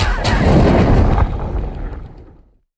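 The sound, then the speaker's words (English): A fantasy film sound effect of a magic umbrella lighting a fire: a loud, rushing, booming burst with a couple of sharp cracks, sustained briefly and then fading to silence over about two seconds. “So what that is the sound of Hagrid lighting a fire with his magic umbrella in Harry Potter and the Sorcerer's Stone.”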